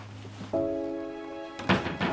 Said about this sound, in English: She walks to the closet and opens the door. She takes out her garment bag and closes the door.